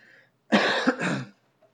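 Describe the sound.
A single harsh cough, split into two quick pulses, from someone reading scripture aloud; it comes out of near silence and ends abruptly.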